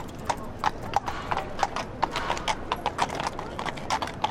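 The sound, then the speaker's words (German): Horse hooves clip-clopping in a brisk, regular rhythm, many crisp knocks over a steady background. “Bevor die Pferde jetzt nervös werden, ja, lassen wir es gut sein. Die haben heute genug geleistet.”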